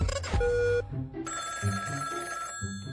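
A telephone rings before a call is answered, giving an electronic ringing tone with steady pitches at a moderate level and no talk.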